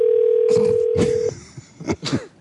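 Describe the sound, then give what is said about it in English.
Telephone line tones on an unanswered call to a hotel: a steady low tone gives way to a few short bursts of signal tones. “Isn't anybody answering the phone there? I know. What if we want a room? Yeah. There's no way to do business. The party you called did not answer.”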